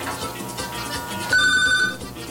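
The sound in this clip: In a studio booth, a telephone gives a single short electronic ring midway through, rising clearly above a steady background hum.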